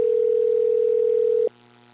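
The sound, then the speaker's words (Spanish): Telephone busy signal: a single steady, mid-pitched tone holds for about one and a half seconds, then cuts off to a faint line hum. “También suena como ocupado.”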